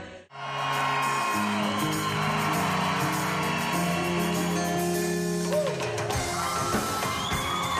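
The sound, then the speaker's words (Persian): Concert audience cheering and whooping as a favourite artist walks onto the stage: a sudden swell of shouts and crowd roar over sustained musical tones, dropping away in the last couple of seconds. “لحظه وعده شده پس از انتظار طولانی فرا می رسد و تماشاگران از هنرمند محبوبشان به روی استیج استقبال می کنند.”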